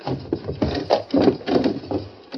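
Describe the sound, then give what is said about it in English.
A window being opened carefully to avoid attention: a string of soft knocks and creaky, scraping rubs over about two seconds, fairly quiet. “Let me try to open this window without attracting attention.”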